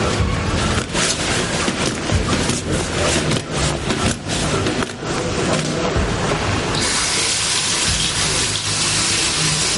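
Water runs steadily from a tap in a hotel bathroom as a young boy washes his hands. The gush is loud and continuous throughout, with no voices.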